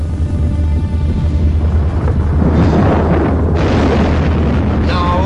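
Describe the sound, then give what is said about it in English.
Underground gas pockets explode and set off volcanic eruptions in a deep, heavy roaring rumble. It stays loud and continuous throughout, a dense wall of low booming with no clearly separate blasts. “Giant subterranean pockets of gas exploded, touching off long sealed volcanoes. Plumes of fire lit the sky.”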